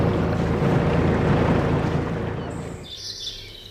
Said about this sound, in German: So hört sich die Nordsee bei Cuxhaven an. Und so klingt es, wenn ein Kutter den großen Hafen verlässt.